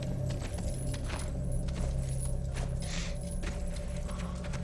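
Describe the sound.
Shackles and chains on a prisoner held in a temple are unlocked, giving a steady, bright metallic jangling and clinking that keeps up throughout without a pause.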